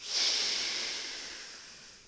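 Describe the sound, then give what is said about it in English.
A single breath from a guided breathing exercise, an airy hiss that swells within a fraction of a second, then slowly fades over about two seconds. “what we'll do is 3 breaths in through the nose and out through the mouth”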